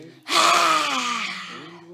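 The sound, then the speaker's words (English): A yoga lion's breath, a forceful exhale with the tongue out: a single loud, breathy, voiced rush that starts abruptly and trails off slowly over about a second and a half. “Let's do a big lion's breath. Bulge the eyes, stick out the tongues. That's a way of being bold. Exhale, four.”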